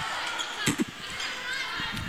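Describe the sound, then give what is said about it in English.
A volleyball serve by the Yellow Jackets during a match sounds as a couple of quick, dull thumps close together near the middle, over a constant hissy background. “A serve by the Yellow Jackets.”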